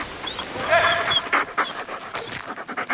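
A dog pants in quick, uneven rhythmic huffs, many short breathy pulses in a row, moderately loud, with a few faint high whining squeaks near the start.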